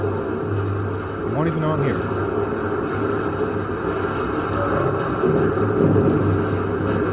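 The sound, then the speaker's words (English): A football-field-sized tunnel boring machine digs with a low, steady mechanical drone and rumble that runs throughout. A man speaks briefly near the start. “It's a boring machine, and I don't mean a dull machine. It's a football-sized tunnel digger.”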